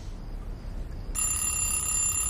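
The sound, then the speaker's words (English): An alarm clock rings beside a bed: after a quiet, faintly hissing stretch, a steady high electronic tone starts abruptly and carries on to the end. “An alarm clock rings next to Hannah's bed.”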